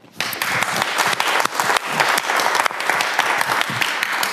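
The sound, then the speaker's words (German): Audience applause welcoming a talk on Linux kernel development: dense, steady clapping from many hands that starts abruptly and stays loud and sustained throughout. “Und deshalb sage ich mal, einen schönen Startapplaus für den Vortrag von Thorsten.”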